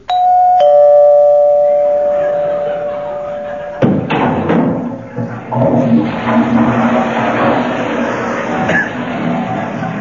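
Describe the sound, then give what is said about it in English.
A doorbell rings as a sound effect for a cosmetics saleswoman calling at the door, holding a bright, sustained chime for several seconds. A sudden thud cuts it off, followed by loud, busy clattering and rumbling noise through to the end. “That was the Avon lady calling at a very inconvenient moment.”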